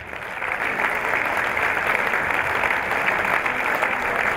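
An audience applauds to welcome Kevin Carr, a former Newcastle goalkeeper and England Police XI player, at St James's Park. The dense, even clapping swells in the first half-second and then holds steady and loud to the end.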